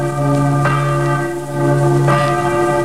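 Church bells ring for midnight Christmas mass, with loud, resonant sustained tones and two clear strikes about a second and a half apart, the ringing carrying on between them.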